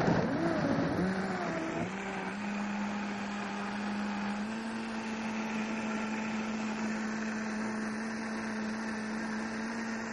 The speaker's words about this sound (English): So we're going to let it blend really good. We're just going to let that blend really good.